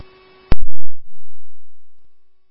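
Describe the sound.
Fire dispatch alert tones for a Bayport Station 1 rescue call to an ALS abdominal emergency: a brief buzzy tone cut off by a few loud clicks, then one long, steady, low-pitched tone that slowly fades.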